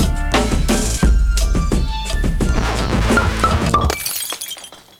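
Glass shattering as things are smashed: a rapid run of loud crashing, breaking bursts with bright ringing shards for about four seconds, then the noise tails off and fades out. No voices.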